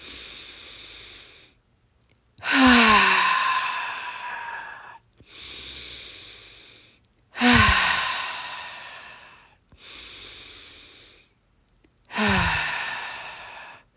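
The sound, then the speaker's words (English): Three slow, deep breaths drawn in during a guided relaxation exercise, each followed by a loud, sighing exhale that tails off, heard alone in a steady rhythm with soft inhales between the strong outbreaths. “take 3 deep breaths in, pause and exhale loudly, and pause to really release all the hurts that are within your body now. So we're going to take our first deep breath.”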